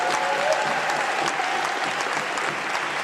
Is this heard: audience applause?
yes